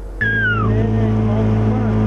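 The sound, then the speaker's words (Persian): A boat motor on the water, carrying a wedding party to the groom's house in a roadless village near Nurek. It keeps up a loud, steady droning hum throughout, with a brief falling whistle near the start. “امردین عالم به این دهه رفت و شاهد عروسی شد که با قایق به خانه داماد میرود.”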